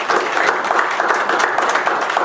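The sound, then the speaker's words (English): Congregation applause at a church worship service, a dense, steady clatter of many hands clapping throughout, fairly loud and even with no break. “Give the Lord a hand of applause in the house.”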